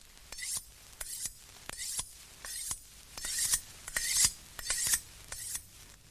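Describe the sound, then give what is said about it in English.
A knife is being sharpened with many rhythmic, evenly spaced rasping strokes, each a bright scraping hiss with a slight metallic edge. The strokes repeat steadily and grow somewhat louder midway, with no talk. “Sharpening a knife...”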